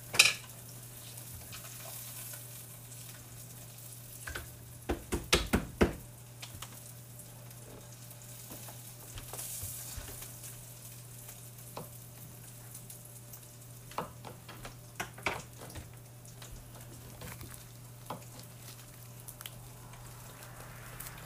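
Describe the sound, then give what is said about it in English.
Cubed Spam cooks in a frying pan with a quiet sizzle under a steady low hum. A few sharp clatters break in, with a tight cluster in the middle and more scattered ones later. “Okay, my Spam is cooking. Travis's Spam is not cooking yet.”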